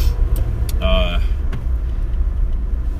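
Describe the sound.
Interior road noise of a car driving in Japan, a loud steady low rumble throughout, with a short tonal chime sounding briefly in the middle.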